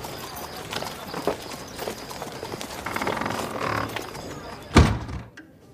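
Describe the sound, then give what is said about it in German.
Horses walking as they are led back to the stable make irregular hoof clip-clops and dull thuds, ending in one louder knock before quieting. “Diese Pferde sind fertig. Führt sie zurück in den Stall und bringt die nächsten 20.”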